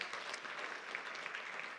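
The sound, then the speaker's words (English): Applause from an audience cheering a children's performance: a dense, steady patter of many hands clapping, fairly faint and even throughout, with no voices. “So let's give them a big hand.”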